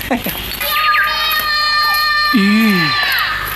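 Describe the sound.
Child crying in the mountains in wailing bursts, a few short cries at the start and a longer wavering wail near the end, over a sustained high tonal background.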